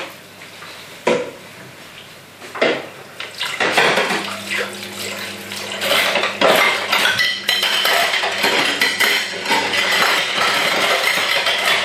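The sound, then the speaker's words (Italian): Dishes being washed by hand under a running tap: plates and cutlery clink and clatter over a steady rush of water, with a few sharp clanks early on, then busier, continuous rattling. “Vediamo quante ore ci impiegherò a lavare questi piatti.”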